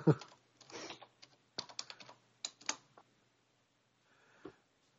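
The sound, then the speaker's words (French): Faint clicking of someone typing on a computer keyboard with one hand, in a few irregular bursts of keystrokes broken by short pauses. “Alors, excuse-moi, je tape d'une seule main.”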